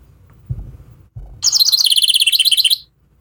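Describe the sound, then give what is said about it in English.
Birds chirp in a fast, high-pitched burst of many rapidly repeated notes lasting over a second. Two low, dull thumps come just before. “Shut birds. The birds up. Shut those birds up”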